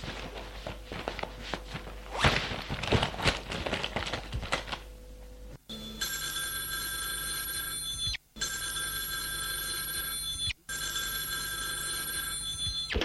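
A telephone bell rings in three long, loud, shrill bursts separated by brief gaps, after several seconds of rustling, clattering movement and footsteps.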